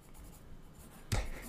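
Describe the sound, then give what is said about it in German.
A pen writes a signature on paper: faint scratching strokes, then a brief, louder scribble near the end. “Pass mal auf, warte mal, ich schreibe mal meinen Namen.”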